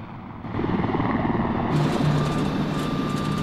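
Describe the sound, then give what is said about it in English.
Helicopter flying over Baghdad, heard as a dense, steady droning rumble that swells in within the first half second and holds at a constant loud level to the end. “A helicopter flies over Baghdad, and some army trucks pass along the empty roads.”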